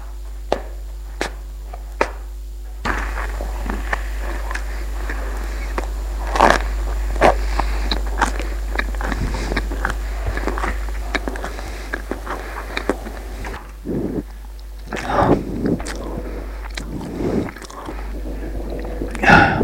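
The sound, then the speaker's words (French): Biting and chewing as someone eats a slice of bread taken from a kitchen table, with a few crisp bursts among softer, irregular mouth sounds over a low, steady hum. “Il va prendre une tranche de pain sur la table et le mange.”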